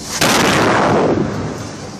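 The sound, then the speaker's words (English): A small warning missile shell strikes a target in Gaza: a single loud blast with a sharp onset, followed by a broad, rumbling roar that slowly fades over about two seconds. “This is how the Israeli military is warning Palestinians of an impending missile strike in Gaza.”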